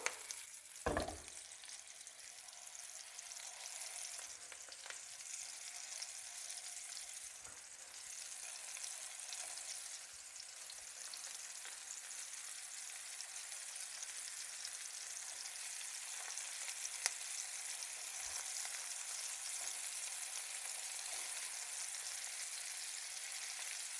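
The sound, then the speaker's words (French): Meatballs fry in oil in a pan with a steady, even sizzle and crackle that lasts throughout. A brief knock is heard near the start. “Donc maintenant, je vais pouvoir mettre mes autres boulettes dans ma poêle. Hop là. Je fais en sorte d'avoir de l'huile partout”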